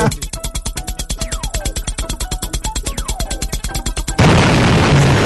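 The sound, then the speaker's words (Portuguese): A radio jingle for São Vicente opens with a fast, steady pounding beat and a couple of falling swoosh tones, then breaks into a loud, sustained explosion-like roar that fills the final second. “Você quer vinheta pra São Vicente? Tem vinheta. Tem, peraí.”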